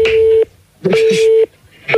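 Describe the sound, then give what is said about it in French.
A telephone signal sounds as a steady, single-pitch electronic tone that repeats in three short, evenly spaced pulses. A voice is heard over part of it. “tu peux arrêter la sonnerie”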